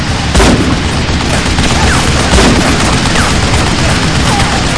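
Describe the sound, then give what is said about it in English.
Rifle fire of 7.62mm hollow point rounds during a fight with a passing machine; two sharp shots ring out, spaced apart, over a constant loud roar of noise. “He sent two 7.62mm hollow point rounds at the machine as it passed by the moon.”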